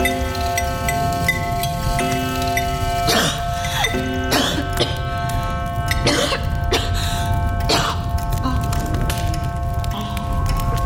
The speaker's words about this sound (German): Husten.